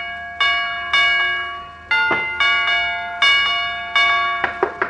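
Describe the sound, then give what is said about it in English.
Doorbell chimes ring out as someone presses the button repeatedly, giving a series of bright, clear bell-like tones that strike and then slowly fade, each ring overlapping the one before. “Oh, it's Doc Gamble pressing the button.”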